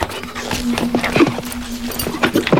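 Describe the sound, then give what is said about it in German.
Ponies neighing and bolting, with dense, rapid hoof clatter and scuffling running throughout at steady loudness. “Hilfe, dieses Geräusch macht das Pony nervös. Schneeflocke, nein! Brandon, die Ponys gehen durch!”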